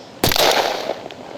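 Rifles fire at will in a sudden, loud, sharp crack that decays into a ringing tail, followed by one much fainter pop.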